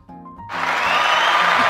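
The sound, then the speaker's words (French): Applause from a crowd at a hard music event swells up after a brief voice, quickly becoming a broad, dense clatter of clapping that keeps building to a steady, loud level. “Ah ouais, merci. Des applaudissements ah ouais.”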